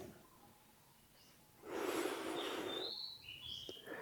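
Faint bird chirps: a few thin, high whistled calls come after a broad rushing burst of noise, all very soft against a quiet background.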